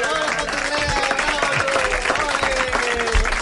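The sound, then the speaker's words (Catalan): An audience applauds at a live show, giving dense, sustained clapping mixed with voices shouting and cheering, loud and continuous throughout. “Que la, com és que l'aplaudiu? Perquè així ens dona la gana!”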